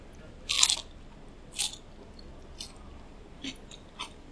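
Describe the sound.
Crunchy bites into crispy fried food: five distinct crunches with no talk. The first is the loudest, and the four after it are fainter and evenly spaced.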